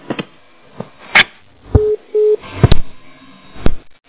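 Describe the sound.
A telephone busy tone after a call is hung up, heard as two short, steady beeps of equal pitch. Sharp clicks and handling knocks on the line come before and after the beeps.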